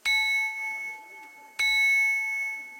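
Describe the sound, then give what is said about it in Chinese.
A handmade porcelain bowl is struck twice, each hit giving a bright, bell-like ding with clear high tones that ring on and slowly fade. “我们刚刚敲击那碗的有钟声，这个碗还会唱歌的。”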